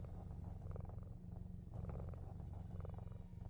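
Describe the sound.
A cat purrs softly, a continuous low rumbling that pulses faintly with each breath and holds steady throughout, alone and quiet.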